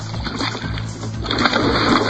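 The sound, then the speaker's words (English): Water splashes around a kayak as a hooked shark tows it through the water. A loud, continuous rush of splashing and sloshing runs through the whole clip and surges a little toward the end. “I got a water splashing everywhere.”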